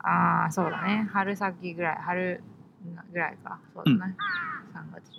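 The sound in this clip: Crows caw in a rapid series of harsh, raspy calls, many overlapping and fairly loud, with uneven spacing between bursts.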